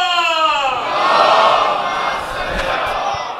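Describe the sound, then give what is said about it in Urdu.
A crowd at a religious gathering shouts its response to takbir and slogans honoring Imam Zain ul-Abidin: one lead voice rings out first, then a loud massed roar swells and slowly fades. “تکبیر، نعرہ رسالت، نعرہ حیدری، نعرہ عظمت و فضیلت چوتھے امام امام زین العابدین علیہ السلام، بلند تر”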